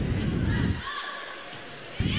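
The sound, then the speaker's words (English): A volleyball serve during a Perham match against the Rebels: a dull thump of the ball struck near the end, with low rumbling impacts at the start, over a steady gym crowd murmur. “Oh, nice serve. I would have bet that was going to hit the net. Ace.”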